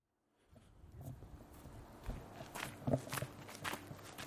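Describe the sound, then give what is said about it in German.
Footsteps of someone walking along a path: quiet, irregular steps that start after a moment of silence and continue steadily over faint background noise. “Ich laufe jetzt weiter auf dem Pfad, der ausgerechnet Pfad der Verliebten heißt.”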